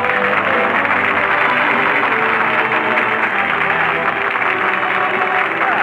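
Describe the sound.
A studio audience applauds a returning host in dense, sustained clapping that holds steady and loud throughout with no breaks, a broad hiss of many hands with a faint murmur of crowd underneath.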